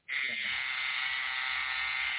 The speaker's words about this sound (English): Hello? Who's shaving? Me. Oh. What are you shaving,